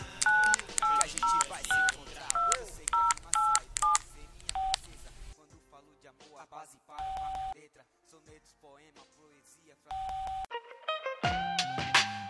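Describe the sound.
Telephone keypad dialing tones: a rapid run of short, bright two-tone beeps in an uneven rhythm, followed by a few longer steady tones separated by gaps and softer murmuring sounds.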